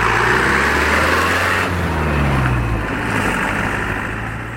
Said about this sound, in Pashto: د خپل زړه موټر سایکل په واسطه په خورا تیزی روان دی